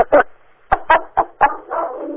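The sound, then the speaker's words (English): A dog barks in a quick run of about five sharp, loud barks, then gives a longer, drawn-out whining note. “I usually stay on mute because it seems when I'm on this phone call, my dog needs to bark.”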